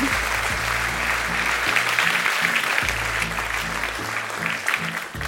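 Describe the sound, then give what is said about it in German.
Audience applause welcoming a guest speaker: loud, continuous clapping from a crowd that carries on steadily throughout, tapering a little at the very end. “Besonders großen Applaus für Reinhard Nosowski. Er ist Leiter des Büros für Betrugsermittlungen im Bundeskriminalamt und ein besonderer Held, weil er heute zu uns kommt, obwohl er sich den Haxen verletzt hat. Herzlich willkommen.”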